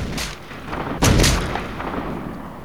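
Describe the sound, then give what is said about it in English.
Gunshots from a weapon fired at the ground: sharp, booming cracks, two loud ones close together and fainter noise before them, over a constant rough background hiss. “then fires his weapon twice more at the ground.”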